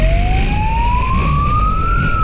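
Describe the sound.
A police siren sounds during a chase of a young rider on a stolen, unplated motorcycle through city traffic. It is one loud wailing tone that climbs slowly in pitch, then dips slightly at the end, with no voices.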